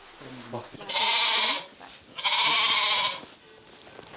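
A billy goat bleats in a stall with two long, loud, wavering bleats separated by a short pause.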